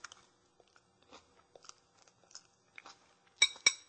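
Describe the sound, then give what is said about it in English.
Crunchy chewing of a bite of jeweled quinoa salad with goji berries and pistachio. Soft, scattered crunches build into two loud, sharp crunches near the end, with no talk. “Go ahead and give this a taste. Make sure you get a little bit of everything in one bite.”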